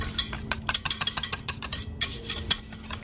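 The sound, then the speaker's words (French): Rapid stirring of egg yolk, 50 g melted butter and 25 g crème fraîche for a tart's cream topping: many quick scraping and clinking utensil strokes against a bowl, in an uneven, busy rhythm. “Alors on y met un jaune d'œuf, 50 g de beurre fondu et 25 g de crème fraîche. On mélange tout ça”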